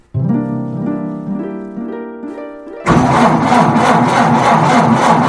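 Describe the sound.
A car engine struggles to start, with a rhythmic, pulsing cranking whine repeating several times before a sudden, loud, rough roar takes over and holds to the end.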